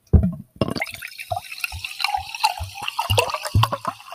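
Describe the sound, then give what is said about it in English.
Sparkling San Pellegrino water is poured and spilled, with a hissing splash followed by many irregular drips and fizzy trickles, alone without talk. “Oh, man, I'm spilling everywhere.”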